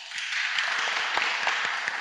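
An audience applauds to welcome a composer at a concert of a solo cello piece. Many hands clap in a steady, moderately faint patter with scattered sharper claps standing out.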